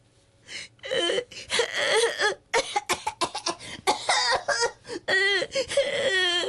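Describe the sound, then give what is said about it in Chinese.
A small child at an inn at night coughs repeatedly in harsh bursts and cries between them, with wavering, strained wails. Many coughs follow one another in an uneven rhythm. “这个呢原来就是一个小孩子啊，不断在那里咳，一路咳一路喊。”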